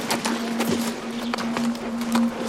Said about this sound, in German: Mit ihren dunklen Augen sah die Waldfrau zu, wie Falk davonritt.